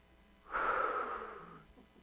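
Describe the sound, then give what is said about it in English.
A single deep breath, drawn as a long, airy rush that swells suddenly, then slowly fades over about a second, heard alone with no talk. “we can all just take a really deep breath.”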